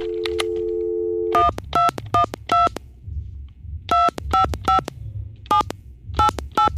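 Telephone keypad dialing a star code on a landline. A steady dial tone gives way to a long series of short touch-tone beeps in quick groups, with brief pauses between them.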